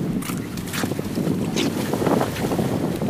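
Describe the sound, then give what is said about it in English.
Wind blows on a sunny beach by the sea, buffeting the microphone in a steady, blustery roar with gustier bursts rising and falling through it. “brought to you live from the beach, where it's a little bit windy, but it's nice and sunny”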